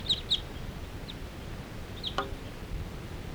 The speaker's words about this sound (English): And there's a whole bunch of crossbills interacting in the sky here.